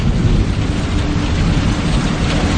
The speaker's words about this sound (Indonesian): Aku lagi dan lagi harus menerobos hujan gerimis untuk sampai di sana. Sambil sedikit berlari. Hujan terus nih.